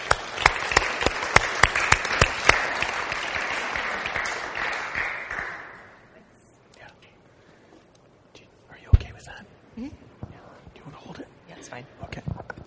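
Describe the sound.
Applause greets a speaker coming up before an audience. Brisk clapping runs strongly for about six seconds, then dies away into near quiet with scattered soft shuffles and murmurs.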